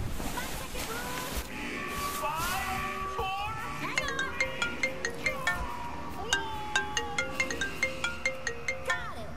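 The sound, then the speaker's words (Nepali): A phone ringtone sounding late at night in a Nepali drama scene: a melodic electronic tune of bright, repeating beeps in a steady rhythm, fairly quiet, over a soft murmuring background. “यति राति कसले phone गर्छ हजुरलाई?”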